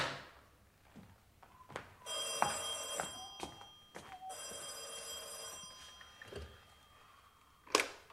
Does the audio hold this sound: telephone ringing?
yes